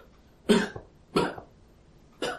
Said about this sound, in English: And she begins to cough more severely,